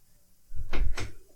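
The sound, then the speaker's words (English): Two dull, low thuds as a stuck, locked door is pulled hard against its lock, each jolt brief and muffled, with near silence before them. “The door's stuck. I'm pulling as hard as I can. No, it's stuck. Locked.”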